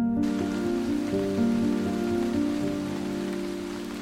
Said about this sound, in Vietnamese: Đó là một đêm trời mưa không dứt. Trận mưa xối xả trút xuống cái xóm nghèo ở vùng đất mới được khai khẩn ngót nghét chục năm ở chốn U Minh này.